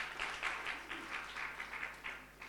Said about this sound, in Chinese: 拍手把荣耀归给耶稣。